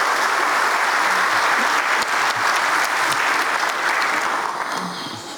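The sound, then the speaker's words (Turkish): Dense, sustained applause from an audience backing a football team's coaches and players on the eve of a match against Barcelona, loud and steady throughout before easing slightly at the end. “kuvvetli bir destek alkışı sizden rica ediyorum değerli.”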